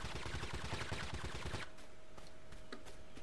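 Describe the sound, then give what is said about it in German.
Gunfire in the video game TABG: a rapid, loud burst of shots for the first half, then a quieter stretch with only a few sparse, fainter cracks. “Verdammt, da ballert schon jemand.”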